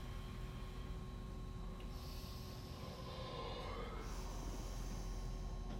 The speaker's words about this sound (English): That's that forceful exhale we're trying to tap into as we find our superpowers of the breath.